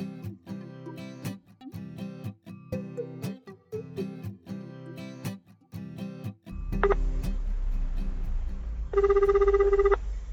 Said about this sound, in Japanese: その時の電話の録音したものを、配信させていただきます。